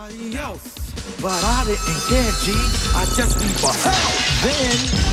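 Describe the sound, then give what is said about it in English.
Expensive glassware hanging in midair inside a store falls to the floor and shatters in a loud, dense crash of breaking glass with sharp tinkling fragments. Talking voices run over it. “The device goes off and all the glass falls to the floor.”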